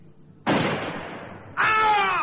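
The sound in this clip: A single rifle shot fired from atop a sand dune: a sharp, loud crack with a long decaying tail, then a second loud sound with a tonal, ringing quality.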